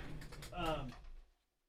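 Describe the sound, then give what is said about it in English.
Rustling and scraping as stickers are dug out of a laptop bag, a dense, scratchy shuffle with small creaks and clicks, a voice briefly mixed in midway, then the noise fades out after about a second. “Trying to get them out of my laptop bag here. We have Schmidt Head stickers.”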